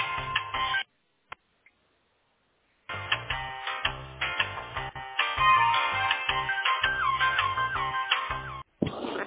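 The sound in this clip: Telephone line sounds while calling a service provider: a tinny, narrow-band melodic tone sequence that breaks off briefly near the start, then plays continuously and ends with a short rising sweep. No one talks.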